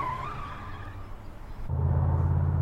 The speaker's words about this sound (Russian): Смотрит на уезжающую машину.